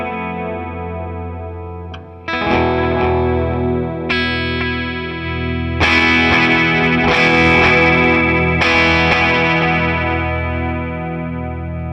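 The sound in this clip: Electric guitar played through a Suhr Discovery analog delay pedal. About six chords are struck in turn, and each one rings out with warm, slightly gritty sustain and echoing repeats that build into a full, shimmering wash.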